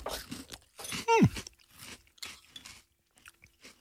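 Crunchy pebernød spice cookies being chewed in cold buttermilk soup, heard as many faint, dry, crisp crunches in an uneven rhythm, with short pauses between bites.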